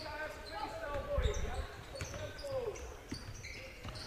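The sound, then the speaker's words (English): Basketball dribbling on a court during a game: a few faint, dull bounces under an announcer's running play-by-play commentary. “Takes a dribble inside, back out.”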